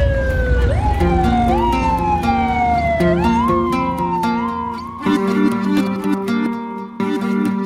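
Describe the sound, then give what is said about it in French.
Sirens wail from a presidential convoy speeding through city streets in Caracas. Loud, repeated rising sweeps overlap with steady, piercing tones that carry on without a break. “le convoi présidentiel de Hugo Chavez file toute sirène hurlante dans les rues de Caracas”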